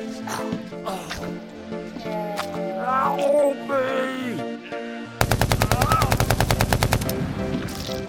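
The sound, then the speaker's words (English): An AK assault rifle fires one rapid, sustained burst of many evenly spaced, loud cracking shots, coming after a stretch where voices are heard. “Good thinking, bringing the AK. It's like I always say, it's not a vacation unless you pack an assault rifle.”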